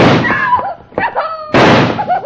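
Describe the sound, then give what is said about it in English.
Two sharp gunshot blasts in an old-time radio western drama, fired during a holdup over cattle money, each a loud, abrupt burst. A voice is heard briefly between the shots. “Now stand back if you don't want to get shot, too.”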